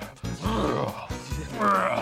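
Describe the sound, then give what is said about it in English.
Lion roars during a magic show trick, a few deep, groaning growls in separate bursts, loud and rough, each swelling and breaking off. “What I'm going to show you is... It's a lion! Lion back in there.”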